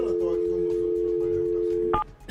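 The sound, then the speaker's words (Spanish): Telephone line tone heard while calling someone: a steady, continuous hum-like tone holds for about two seconds, then a brief, higher double-pitched beep cuts in at the end. “Vamos a llamar al Edwin González. Señor Edwin González, a ver si nos contesta”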